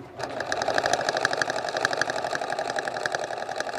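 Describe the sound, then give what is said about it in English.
A sewing machine runs steadily while quilting in Wayne County, Kentucky, its rapid, even mechanical stitching rhythm chattering without pause throughout. “She can sit down and she'll clean her machine and she'll thread it up herself and sit down and start sewing.”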